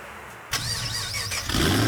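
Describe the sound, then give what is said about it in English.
A car engine at a car, bike and truck show starts up suddenly and revs, a wavering whine that grows louder and fuller toward the end. “Rev your engines.”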